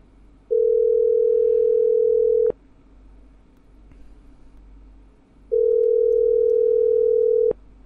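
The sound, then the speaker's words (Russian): A telephone rings out after a call is dialed: two long, steady ringback tones at a single pitch, separated by a silent gap, with no voices. “Так, давайте ему сейчас наберем. Может, возьмет трубку? Я ему набираю.”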